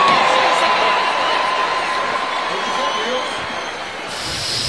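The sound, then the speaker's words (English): A crowd cheers and shouts as Joe Biden trips and falls, a continuous roar of mixed voices and talk that eases slightly near the end. “And everybody cheered him. They did. They cheered his fall.”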